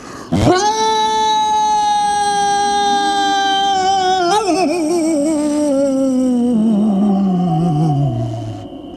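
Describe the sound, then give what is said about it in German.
Voice imitating a werewolf howling: one long, loud, sustained howl that holds steady, wavers midway, then slides down in pitch and fades at the end. “Hört mal, wie ich heulen kann.”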